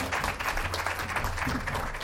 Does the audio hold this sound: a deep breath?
no